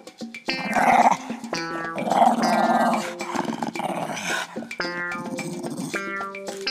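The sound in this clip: A dog growls loudly and steadily for several seconds, a rough, rumbling growl in long stretches broken by brief pauses, with no other sound.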